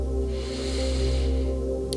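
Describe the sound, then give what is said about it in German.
A deep, slow inhale through the nose during a guided breathing exercise, a soft airy hiss that swells and fades over steady, sustained background music. “Noch einmal, tief durch die Nase einatmen”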